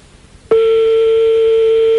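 A telephone ringing on a call: one loud, steady, pure ring tone starts abruptly and holds unbroken to the end, with no voices over it.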